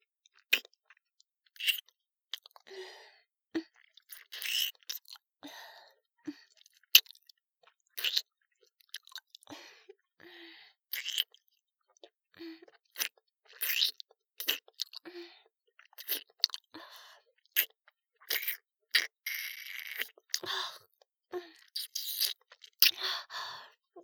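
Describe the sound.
Wet licking and sucking mouth sounds on a nipple: many short, clicky smacks and slurps in an irregular rhythm, fairly soft, with no talking.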